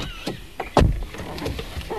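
Car doors as passengers climb in: a few light clicks and knocks around one heavy, low thud, over a steady background hum.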